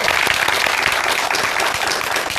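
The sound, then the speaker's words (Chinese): Warm, dense applause from an audience welcoming a professor to a classical Chinese poetry recitation event, loud and steady throughout with no talk over it. “我们用热烈的掌声欢迎我们的活字典姚教授。”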